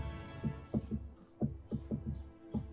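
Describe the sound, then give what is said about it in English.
Someone taps faintly on a desk in a dull, low, thumping rhythm that sounds like a heartbeat. Many soft knocks come in uneven clusters over a quiet hum, with no talk. “Who has a heartbeat going real bad? Someone's tapping their desk or something.”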